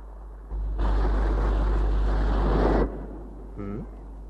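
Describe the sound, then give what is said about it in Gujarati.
Ocean waves crashing against the shore at high tide: a loud, broad roaring rush over a deep rumble that lasts about two seconds, then drops back to a quieter low wash. “પાણીના મોજા કેવા ફૂફાડા મારતા ધસમસતા કિનારા સાથે પછડાય છે. અને ફુવારાની જેમ કેટલા ઊંચા ઉછળે છે.”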